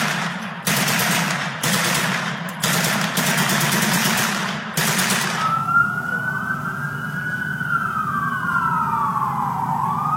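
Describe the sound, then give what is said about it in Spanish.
Armed gunmen at a birthday party fire loud, sustained automatic bursts, several in a row with brief gaps between them. A siren then wails, rising and falling. “De pronto, un comando armado conformado por al menos 20 sicarios llegó en varios vehículos, cerró la calle, bloqueó las salidas y abrió fuego sin previo aviso.”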